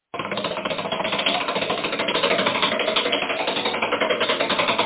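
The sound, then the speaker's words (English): A big prize wheel spins with a dense, rapid stream of clicks. The rattling is fast and even, stays loud throughout and sounds alone, with no voices over it. “Let me walk my way over to the wheel here and reach up to the very top and make a nice big spin of it.”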